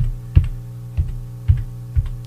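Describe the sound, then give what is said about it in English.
Keystrokes on a computer keyboard as a song title is typed in: four separate sharp clicks, evenly spaced, over a steady low electrical hum, with no voices. “Then type in the song title.”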